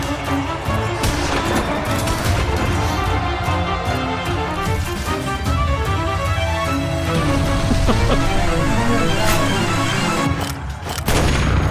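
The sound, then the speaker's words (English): Gunfire and explosions crash through a video game battle where a gunman with grenades takes on a medieval army at a castle, a loud, dense and unbroken barrage of shots and booms layered over heavy noise. “now there's a guy with a gun taking out swords and sorcery types”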